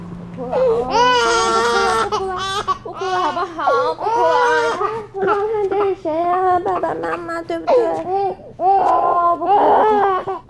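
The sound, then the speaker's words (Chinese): A baby cries in sustained, wavering wails with brief breaks between bursts, loud throughout, mixed with babbling-like sounds. “不哭了，不哭了，不哭了，好不好？不哭了。”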